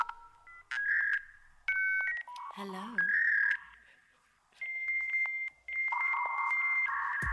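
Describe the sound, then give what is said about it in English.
Dial-up modem connecting to the internet: a run of dialing tones and beeps, a single spoken word in the middle, then long, steady high-pitched tones broken by short gaps. “Slow internet, no downloading. EGA screens and dial-up modems. 5 1/4-inch floppy disks. And the World Wide Web used to sound like this.”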